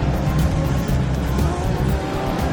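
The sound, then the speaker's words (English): Le Mans prototype race cars, three Peugeots followed by an Audi, pass at racing speed during the 24-hour race, making a loud, continuous engine roar. A man talks over it throughout. “There go the three Peugeots, followed by one of the Audis.”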